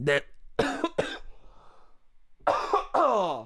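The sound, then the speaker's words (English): A person coughs several times in quick, harsh bursts, followed after a pause by a short voiced sound at the end. “I better get over this fucking cough.”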